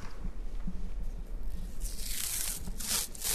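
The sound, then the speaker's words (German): Rubbing and rustling of adhesive tape as a pain electrode is fixed to a right hand in a university hospital, ahead of electric-shock testing. Soft handling noises lead into a louder, hissing tear or peel toward the end, with no talk. “dann würde ich jetzt bei Ihnen einmal die Schmerzelektrode aufkleben auf die rechte Hand”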